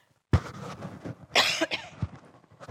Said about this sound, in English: Now, don't panic when I cough.